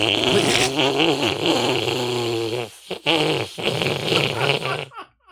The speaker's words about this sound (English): I can't tell who made that noise. I have made a loud fart noise during the announcements.